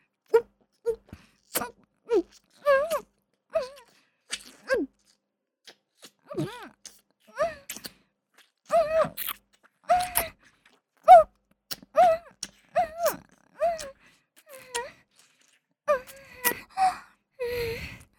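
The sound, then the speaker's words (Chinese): Rapid, heavy breathing comes in many short bursts separated by brief pauses, mixed with voiced moans and gasps in an uneven rhythm. “你的呼吸听上去好急促。”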